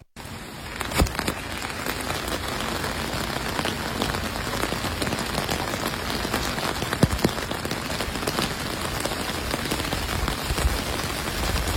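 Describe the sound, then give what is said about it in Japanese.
Rain falls steadily on an ordinary fabric umbrella, making a dense, even patter of countless drops that holds at a constant level throughout with no voices. “では最初に一般の普通の傘の音です、どうぞ。”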